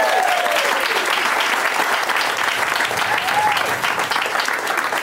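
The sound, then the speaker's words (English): Audience at a comedy show applauding a family, a steady, loud wash of clapping that holds evenly from start to finish. “So let's hear it for this family right here.”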